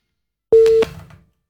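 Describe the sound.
A telephone line tone sounds after a call to a radio phone-in is cut off. It is one short, steady, mid-pitched beep followed by a brief fading crackle of line noise.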